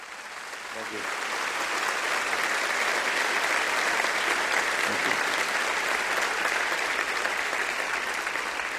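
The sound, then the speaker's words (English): Loud audience applause in a church welcoming a guest speaker, building within the first second into steady, dense clapping that continues for several seconds. “So Northview, will you give Bob Russell a warm Northview welcome?”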